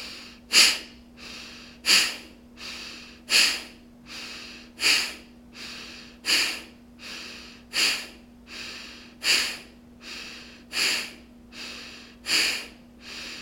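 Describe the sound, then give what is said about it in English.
Breath of fire breathing exercise: a steady run of sharp, forceful nasal exhales at an even pace, each a short hissing snort, repeated many times alone without talk. “take a quarter breath in to begin this breath of fire. Strong exhale when you're ready.”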